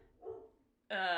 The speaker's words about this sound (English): That was my boy. That's my doggy dog.